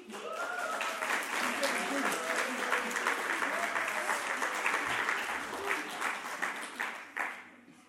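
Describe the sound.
Sustained applause from a group for the children's decorations at a children's group gathering with a blessing, loud, dense clapping that keeps going for several seconds with a few voices mixed in before it thins out at the end.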